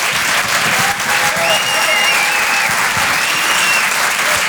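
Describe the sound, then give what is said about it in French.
An audience in a theatre breaks into applause for a performer. The clapping is dense and steady throughout, with a few high whistles or cheers rising above it. “Je vous demande de l'encourager, faites un maximum de bruit s'il vous plaît pour Guillaume Fosco.”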